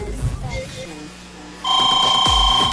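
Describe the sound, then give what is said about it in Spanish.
An incoming call sets off a telephone ring, a loud electronic warbling ringtone that breaks in after a stretch of talk and continues to the end. “¡Recibo llamada!”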